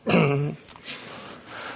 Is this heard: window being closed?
no